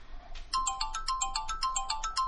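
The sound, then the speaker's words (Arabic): An electronic phone ringtone rings on with no one answering, a bright repeating melodic pattern of short beeping tones that starts after a brief faint lead-in and keeps cycling steadily to the end. “التليفون بيرن ومحدش بيرد، يا ترى حصل ايه؟”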